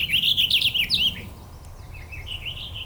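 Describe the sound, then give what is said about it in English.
A male purple finch sings a bubbly, warbly song from up in a tree, a quick run of high, rolling notes. A softer, similar warble follows after a short pause, over a low steady background rumble. “So it's usually singing fairly up in a tree, not right off the ground. And it's a bubbly song. It's very warbly.”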